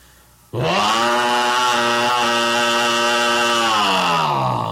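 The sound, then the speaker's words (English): A chainsaw used for cutting cordwood starts abruptly and roars at a loud, steady, high revving drone for several seconds. Its pitch sags slightly near the end. “That chainsaw we sold you should do the trick.”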